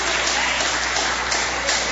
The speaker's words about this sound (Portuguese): Adore o Senhor com palmas. Pode adorar o Senhor com palmas, igreja. É para o Senhor Jesus, o Senhor merece.